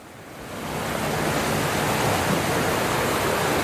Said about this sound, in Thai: เดี๋ยวมาดูตรงนี้เราเห็นน้ำอยู่เนี่ยจะได้เห็นว่าน้ำมันพอมีแรงยังไงนะครับ